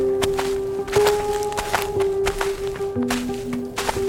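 Footsteps walking at a steady, even pace, a long series of soft thuds running through the whole stretch over a sustained low tonal hum, with no talking.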